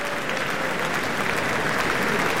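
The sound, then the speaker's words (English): A standing ovation for the Boston Symphony, conductor Andris Nelsons and Erin Morley: dense, sustained applause from a large audience, loud and even throughout. “All the musicians of the Boston Symphony now standing as Andres Nelsons and Erin Morley are holding hands, bowing to the audience. They themselves are also on their feet for a standing ovation.”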